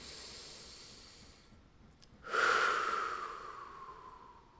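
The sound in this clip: One deep breath, quiet and heard alone, rushes in abruptly as a soft airy hiss and then tapers off slowly.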